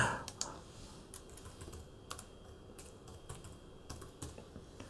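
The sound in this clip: Typing on a computer keyboard: faint, irregular key clicks in quick bursts and scattered single taps over a quiet background.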